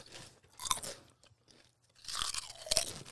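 Kettle-cooked cheddar potato chips crunch faintly in two separate bouts of chewing, divided by a short quiet pause.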